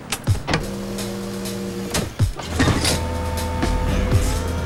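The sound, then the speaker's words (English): Switches click and an electric motor whirs as a taxi cab is raised to alter its wheels. A few sharp clicks come first, then two long runs of humming motor whine. “Belle begins flicking various switches that raise the car up to alter the wheels for speed.”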